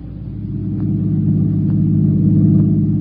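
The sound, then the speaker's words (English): A car drives fast, its engine giving a steady low rumble that grows slightly louder through the short stretch, with no voices over it. “You're driving too fast”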